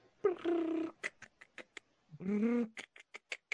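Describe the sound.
Faint chirping and croaking echo along a stone tunnel with polished walls. Two longer, low, harmonic croaking calls alternate with many short, sharp, high chirps, and no voices.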